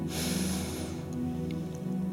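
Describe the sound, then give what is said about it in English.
A deep inhale through the nose: a single breathy rush lasting under a second that fades out, then a quieter stretch with a steady low hum underneath. “as we take another inhale.”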